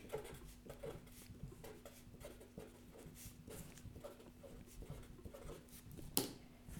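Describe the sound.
Pen scratching on paper while someone handwrites a short note, a faint, steady rustle of strokes with soft irregular pulses and no clear pauses.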